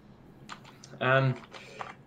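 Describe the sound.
Keystrokes on a computer keyboard while someone searches Google: a few soft clicks, a brief voiced sound in the middle, then another short run of typing.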